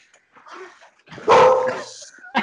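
A dog barks in the background with one loud, drawn-out bark in the middle, softer yips before it and a short final bark.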